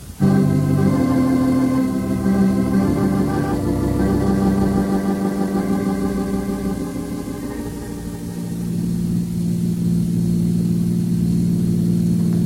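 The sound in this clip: A car engine runs as someone drives home, giving a steady low hum with a smooth whirring tone that dips slightly in loudness partway through and then settles again.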